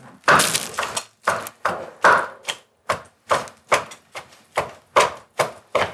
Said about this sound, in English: Oh, so you're gonna chop it up nice.